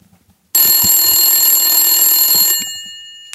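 An incoming call rings on a telephone: one sustained, bright electronic ring holds steady for about two seconds, then fades, with a tiny click at the very end.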